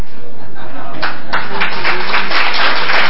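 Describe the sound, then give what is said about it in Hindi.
An audience clapping at a gathering: loud, dense claps that start about a second in and grow quicker and heavier, with a voice mixed in. “आप सभी ताली क्या बजा रहे हो?”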